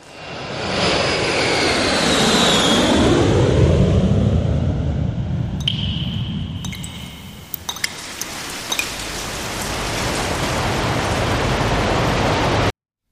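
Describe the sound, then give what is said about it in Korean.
Airplane engine roaring as the aircraft takes off. A loud, sustained rush carries sweeping tones early on, with a few brief clicks midway, and it holds steady for over twelve seconds. “항공기 출발합니다.”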